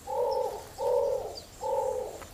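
An imperial pigeon coos on an island with palm trees, giving three low, soft, hollow coos in an even rhythm with short gaps between them.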